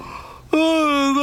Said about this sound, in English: Mr. Chubby let out a huge yawn.